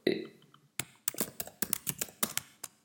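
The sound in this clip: Typing on a computer keyboard: a quick, irregular run of light plastic key clicks begins after a short pause and continues steadily, some strokes louder than others.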